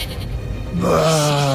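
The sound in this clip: A goat bleat sound effect comes in after a short stretch of low noise: a single sustained, wavering, nasal cry that holds to the end.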